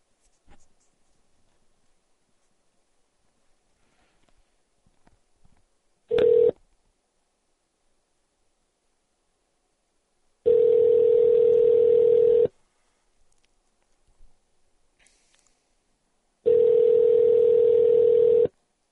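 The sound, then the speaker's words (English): Outgoing telephone call: faint soft clicks and a brief tone, then two long, steady ringing tones of about two seconds each, separated by a quiet pause. “Since we're not getting any calls in right now, I'll make a call out.”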